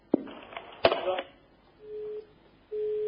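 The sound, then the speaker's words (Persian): Phone line disconnecting during a radio call-in: a few sharp clicks, then a steady mid-pitched tone that sounds twice, the second running to the end. “الو، گویا یکی هم ارتباطش قطع شد.”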